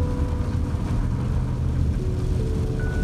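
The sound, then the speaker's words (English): A car drives along snowy forest roads, giving a steady, continuous low rumble of engine and tyres with faint tonal whine above it and no voices. “Snowy roads after painting all day.”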